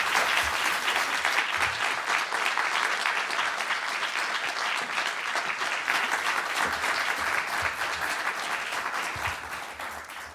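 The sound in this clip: Warm audience applause at the Los Angeles Public Library welcoming two authors onstage: a dense, loud wash of clapping that holds steady for most of its length before easing off slightly at the end.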